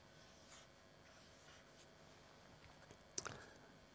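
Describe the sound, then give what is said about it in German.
Handwriting three letters: faint scratching pen strokes in short bursts, ending with one sharper tap, quiet and alone. “Ich schreibe mal drei Buchstaben hin.”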